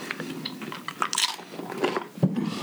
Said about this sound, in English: I want to hear you crunch that. Just get right up.